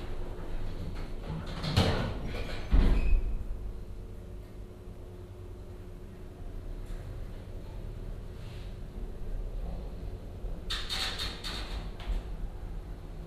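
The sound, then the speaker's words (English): Lift doors slide open and shut on a lift serving several gallery levels, heard as soft rumbling whooshes early on and again near the end over a quiet, steady mechanical hum. “Doors opening. Doors closing. Going down.”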